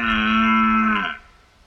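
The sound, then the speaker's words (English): A stag's call sounds as one loud, sustained bellowing roar with a rich, buzzy tone. It dips slightly at the end and cuts off abruptly, leaving near silence. “And what is that sound? It's a stag. That's right, it's a stag.”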